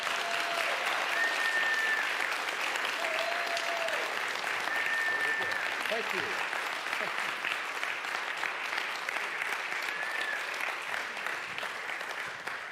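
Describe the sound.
Sustained crowd applause at Mendham Hills Community Church welcomes a returning guest, a thick, even wash of clapping that holds steady at full strength and eases only slightly at the very end.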